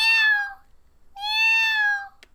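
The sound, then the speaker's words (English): A person imitates the meowing of a kitten shut in a laundry room, giving two drawn-out, nasal meows that fall in pitch. The second meow is longer, with no other talk. “That was a really good cat noise. Well, thank you. I'm really good at impressions.”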